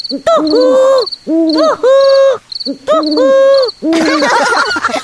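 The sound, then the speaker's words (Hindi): An owl hoots loudly in four separate wavering calls, each a rich, multi-part hoot with brief gaps between. High, faint insect chirping runs steadily behind them. “ये तो उल्लू की आवाज है।”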